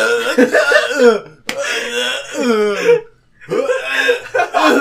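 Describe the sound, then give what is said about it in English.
A person choking and coughing in three raspy, strained bursts separated by short pauses, with voiced gasping and throaty, hacking sounds. “I'm sorry. I choked.”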